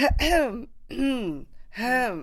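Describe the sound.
Nervous, anxiety-driven throat-clearing coughs from a person: three separate voiced, rasping bursts, each sliding downward in pitch, fairly loud, with short gaps between them.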